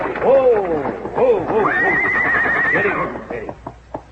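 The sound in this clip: A mare whinnies loudly in a long, quavering call that climbs to a high, shrill stretch before trailing off, followed by a few sharp hoof clops.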